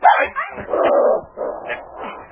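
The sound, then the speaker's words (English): A dog whimpers and lets out short yipping barks, a few strained whines and yelps in quick succession, fairly loud with no talking over them. “Here, Duke. Nice dog. Here's some meat.”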